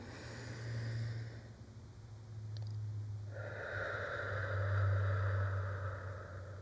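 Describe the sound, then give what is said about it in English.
A deep breath is pushed out hard during a cleansing-breath exercise: a long, airy rush of exhaled air that swells in the second half and stays strong to the end. “Just big cleansing breaths, okay? Push that breath out as far as you can.”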